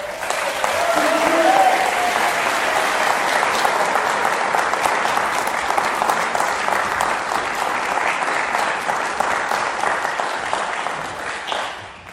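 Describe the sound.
An audience at a Cornerstone gathering applauds to welcome a speaker to the stage. The clapping is loud, dense and sustained for about twelve seconds, peaking early and thinning slightly before it tapers off at the end.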